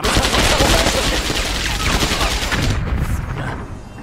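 Heavy rapid gunfire from a firearm, a dense, continuous barrage of loud shots that stays loud throughout and eases slightly near the end.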